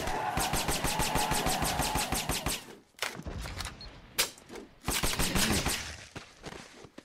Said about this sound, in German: Wahrscheinlich, weil ich gerade mit der Vulkan geschossen habe.